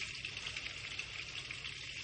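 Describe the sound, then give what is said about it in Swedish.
Meat sizzles in butter in a frying pan, a faint, steady hiss of crackling fat that holds an even level throughout without pauses. “när det här smöret har tystnat så är det dags att gå in med grejerna. Och jag tänker då börja med köttet, för det är det som tar längst tid.”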